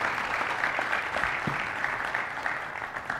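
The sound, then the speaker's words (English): A church audience claps for a guest speaker welcomed at Mission View one morning. Applause from many hands forms a steady, moderately loud patter with occasional sharper claps, and it eases slightly toward the end. “Let's give a, a warm mission view welcome to Craig Peters this morning.”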